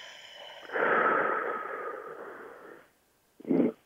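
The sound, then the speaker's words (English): A deep breath is drawn in through the nose and let out through the mouth. A long, steady, airy rush of breath is followed after a brief silence by a short, sharper puff, with no talk. “I want to encourage you to pause, take a breath, in through the nose, out through the mouth.”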